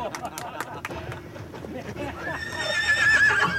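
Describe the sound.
A lean, long-legged chestnut horse leaps onto an embankment. A few clattering hoof sounds open, then a loud, shrill, wavering whinny rises over them, with people talking in the background.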